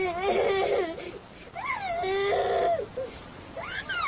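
An infant cries in loud, wavering wails, the pitch bending up and down across several drawn-out sobs with short gaps between them.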